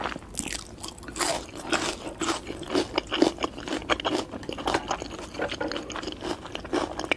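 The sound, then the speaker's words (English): Noisy eating with crisp crunching bites and wet chewing, many rapid irregular crackles running steadily throughout, close and alone without any talk. “So people actually like are relaxed by other people eating food. Like, you know, making that noise, kind of like something that sounds like this.”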